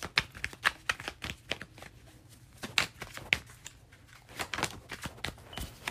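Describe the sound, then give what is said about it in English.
Tarot cards are shuffled and drawn, with many crisp, irregular snaps and riffling flicks at a soft level and no talking. “So let me just get a few more cards and we'll end.”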